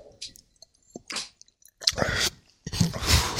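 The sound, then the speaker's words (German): People drinking Moorgeist liqueur: a few wet, irregular gulping and lip-smacking sounds with short squishy swallows, separated by quiet pauses and growing busier toward the end. “Okay, gut, jetzt, jetzt trinken wir das. Ja, also, wir trinken jetzt den Moorgeist.”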